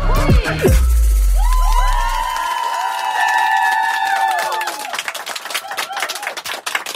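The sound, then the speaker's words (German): A studio audience at the FM4 stand-up stage whoops and cheers live on air. Loud cries and whistling rise at the start, then fade into a spray of scattered clapping. “Ja, wenn es Jubelschreie gibt hier live auf Radio FM Quattro, dann heißt das, dass Leute hier sitzen im Sendestudio”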